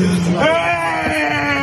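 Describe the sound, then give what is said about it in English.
A father wails over the body of his son, a loud, sustained, tremulous cry that holds a steady pitch for under two seconds. “His father is inconsolable, wailing over the body of his only son.”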